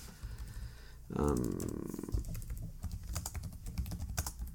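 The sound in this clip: Typing on a computer keyboard while writing notes, quick irregular key clicks tapping away in a continuous flurry at a moderate level.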